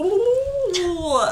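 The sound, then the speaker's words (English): A voice imitates the sound of rewinding, giving a short, warbling whine that holds a steady pitch, dips, then sweeps up sharply, lasting just over a second. “That is the sound of rewinding. That's exactly what rewinding sounds like.”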